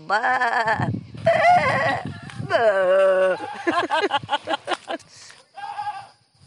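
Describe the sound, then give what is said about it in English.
Sheep bleating near a house on a Greek island: a series of loud, wavering bleats, some long and held, others breaking into quick quavering pulses, with brief pauses between calls. “The other sounds are sheep, because our neighbors... are all either sheep or goats.”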